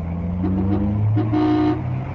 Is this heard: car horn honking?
yes